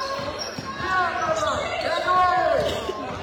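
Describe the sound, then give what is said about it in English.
A basketball dribbled down the court during a women's game: repeated bounces in a steady rhythm under a talking voice. “Dribbles down the court.”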